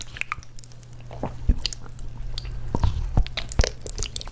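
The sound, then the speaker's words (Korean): Wet chewing and biting while someone eats spicy braised ox trotters on camera in a mukbang, with many squishy, smacking bites and crunchy clicks in an uneven rhythm and no talk. “탕 재료로 주로 쓰이는 우족에 매운맛을 더한 우족찜은 이른바 먹방 콘텐츠의 단골 손님이라고 합니다. 이야, 참 맛있게도 먹네요.”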